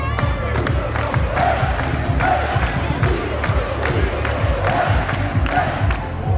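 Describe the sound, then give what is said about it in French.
A crowd of supporters roars an ovation as a trophy appears on stage at a celebration in French-speaking Switzerland. Loud, steady cheering runs throughout, punctuated by many sharp, rhythmic claps or thumps. “La coupe vient d'apparaître sur scène, sous les ovations du public.”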